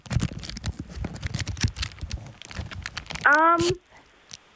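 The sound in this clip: A tuna tin is unwrapped from its packaging in a dense run of small crinkling, crackling ticks and rustles. The sound is fairly faint and stops shortly before the end.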